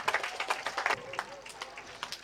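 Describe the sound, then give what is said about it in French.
Congregation in church clapping and cheering, a faint, uneven run of claps with voices mixed in, the bursts coming and going rather than forming a solid wall of sound. “On va acclamer la Vierge Marie.”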